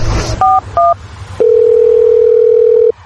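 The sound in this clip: Telephone tones while calling a friend: two short two-pitch beeps after a noisy start, then a loud, steady low dial tone held for about a second and a half.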